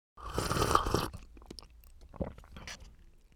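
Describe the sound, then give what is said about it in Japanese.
Chewing and mouth noises while eating ski soup, a warming dish with sweet potato: a loud, noisy burst of munching at the start, followed by quieter, scattered crunches and soft smacks. “これを食べて体を温めてください。スキー汁という料理です。 おお、ではいただきます。”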